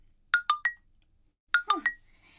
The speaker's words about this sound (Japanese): もう、あれ？電話？